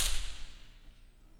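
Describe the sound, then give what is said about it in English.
Gunfire aimed at President Kennedy in Dallas: a sharp, loud crack bursts out at the start, then decays into a fading rumbling tail with no voices. “A gun exploded. Two shots.”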